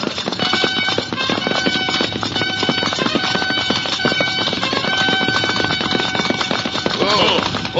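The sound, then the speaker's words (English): Horses' hooves as riders gallop up a mountain pass, a rapid, dense clatter of hoofbeats running continuously and loudly from start to finish. “Come, let us ride up to the top of the pass. Quickly.”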